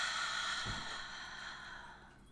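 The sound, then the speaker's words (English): A slow, deep breath is drawn in and then released as a long, soft, airy exhale that gradually fades. It is quiet and unhurried, with no talking. “Let's take a nice deep breath in. And release.”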